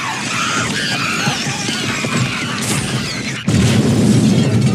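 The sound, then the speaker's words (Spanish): A burning cinema explodes: a dense, continuous roar of fire and debris with high squealing runs steadily, then at about three and a half seconds a sudden loud boom lifts everything into a heavier, deeper, sustained roar. “Billy y Kate se parapetan tras un coche y desde allí ven cómo el cine estalla y se incendia.”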